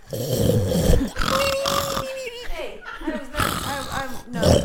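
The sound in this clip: A voice imitates the snoring of a sleeping person with rough, throaty snorts and a thin whistling tone, loud and continuous across a few breaths.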